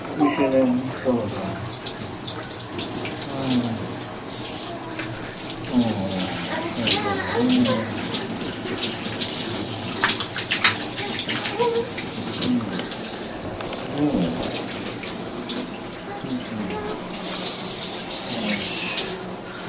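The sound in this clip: Water running continuously while someone washes their body, a steady rushing and splashing flow with irregular spatters and drips throughout.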